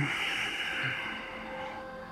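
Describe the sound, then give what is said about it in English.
A long, steady breath exhaled during a seated yoga twist (Matsyendrasana), heard as a soft, breathy hiss that fades gradually over about two seconds. “Inhale, take the left hand up. Deep breath in. And then exhale, twist to the right.”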